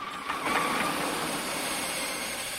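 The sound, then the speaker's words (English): A brown sedan slews round in a tight turn on a quay and drives off, giving a steady, even engine drone that holds at a similar level from start to finish. “The car slews round in a tight turn on the quay and heads off.”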